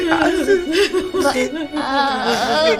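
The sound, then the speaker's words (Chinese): A person cries loudly in wavering, sob-broken wails that run unbroken for about three seconds without a pause. “别哭了，你哭咱爸病也好不了。”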